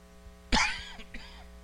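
A preacher coughs while choked up during a sermon: one sharp, strong cough followed a moment later by a second, softer cough.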